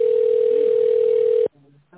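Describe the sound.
Steady single-pitched telephone tone while a call is being transferred, holding for about a second and a half before cutting off abruptly, followed by brief faint tonal sounds.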